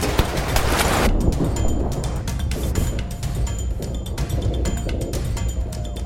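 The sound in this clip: Gunfire in a chaotic firefight, dense overlapping shots and bursts that merge into a loud, continuous crackling barrage with no pause.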